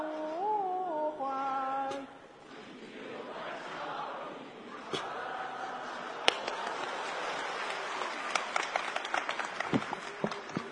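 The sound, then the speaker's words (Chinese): Audience clapping after a song at a comedy concert: scattered, uneven claps and crowd noise build over several seconds and stay fairly faint throughout. “花那么些钱唱这破歌，唱完还鼓掌呢。”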